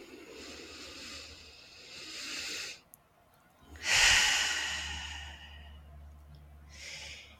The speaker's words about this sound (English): Take a deep breath in and out. And one more breath on your own.